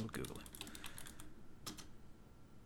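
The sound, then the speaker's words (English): Keys clatter on a computer keyboard during a web search, faint rapid clusters of keystrokes, then a pause before a short final burst of typing. “Oops. I was Googling McDonald's and I typed the McDonald's.”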